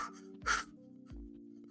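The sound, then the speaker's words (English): Deep breathing demonstrated as an abdominal and core exercise, two short airy breaths, the first louder than the second, over a steady low hum. “A lot of deep breathing would help in terms of like building up your abdomen and your core strength. So even just sitting there and just going,”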